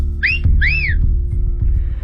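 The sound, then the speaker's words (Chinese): A person whistles two short notes, each arching up and then down in pitch. The bright whistles sound clearly over a steady low background hum, and the hum continues alone afterward. “吹了声口哨”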